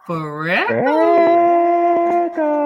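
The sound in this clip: A dog howls in one long, sustained wail, its pitch climbing at the start and then holding steady and loud, with a brief dip near the end before it carries on.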